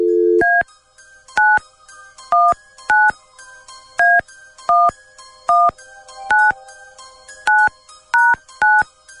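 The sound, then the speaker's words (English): A telephone number is dialed at random: a brief low tone gives way to a long series of crisp keypad beeps, each short and evenly spaced about a second apart, with varying pitch pairs and no talk. “Here we go. Dialing at random.”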